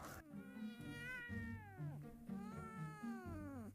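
A cat meows several times in long, drawn-out, wavering cries, loud and insistent, with short breaks between them.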